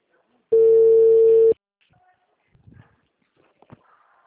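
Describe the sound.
A telephone ringback tone sounds while a call connects: a single steady, one-second beep at a constant mid pitch, followed by near silence with faint clicks and rustles.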